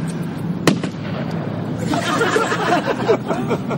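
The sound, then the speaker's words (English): A single sharp gunshot crack rings out near the start, then a busy murmur of background noise continues without another shot. “Okay, but basically, you went off before I fired the gun.”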